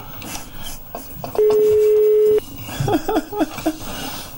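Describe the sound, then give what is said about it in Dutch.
A telephone ringing on the line: one steady, sustained low-pitched ring tone lasting about a second, followed by a few short chirping tones over faint background noise. “Hij gaat over. Telefoon.”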